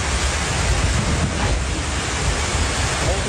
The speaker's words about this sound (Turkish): Gümüşler beldesinde sokaklar nehre döndü, sular önüne çıkanı sürüklemeye başladı.